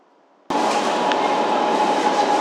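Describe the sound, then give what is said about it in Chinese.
A subway train arrives at a station: after half a second of near quiet, a loud, steady rumble and rattle starts abruptly and carries on to the end, with no voices. “We are arriving at 良乡 University Town Station.”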